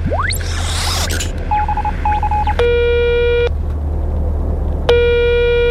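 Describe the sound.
A telephone dials a call with a quick run of beeping keypad tones, followed by two longer buzzing ring tones separated by a pause, all over a steady low hum.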